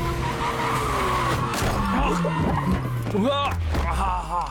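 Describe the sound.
Car tires skidding and squealing as the brakes fail, with sweeping high squeals over a low engine drone, and voices briefly heard.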